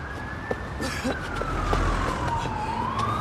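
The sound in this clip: A police siren wails steadily, its tone sliding slowly downward before climbing again near the end, over a low background rumble.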